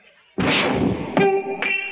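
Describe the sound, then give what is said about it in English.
A gunshot is fired at a beer can: a sudden loud blast with a sustained rumbling tail. Two sharper hits follow, leaving ringing tonal overtones. “Oh, there's a beer can. Miss, shoot again. I'm a bad shot.”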